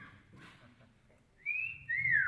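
Admiring whistle from a man greeting his wife as she comes down the stairs in the morning: two bright, loud whistled notes in quick succession over a faint low background hum.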